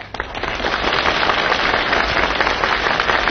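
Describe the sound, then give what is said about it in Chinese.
Thunderous applause from a comedy show audience during a sketch, a dense, crackling roar of clapping that surges in almost at once and stays loud and steady to the end. “你听观众的掌声，掌声如雷呀”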